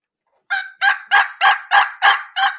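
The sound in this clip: A turkey hen's transition yelp imitated by a caller: seven evenly spaced, raspy yelps in a steady rhythm after a brief silence, each a short, loud note, with no talk.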